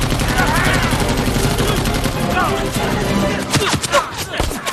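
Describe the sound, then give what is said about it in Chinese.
Machine gun fire during a battle at a cave: dense, continuous rattling blasts fill the whole stretch, loud and unbroken, then break into sharper separate bursts near the end. “给我上机枪！”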